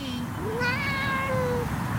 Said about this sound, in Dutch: Ze miauwt en ze blaast.